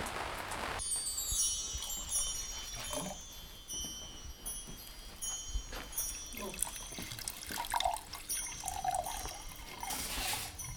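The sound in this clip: Water poured into drinking glasses that will later be played for sound, a continuous trickling pour with faint ringing overtones running throughout.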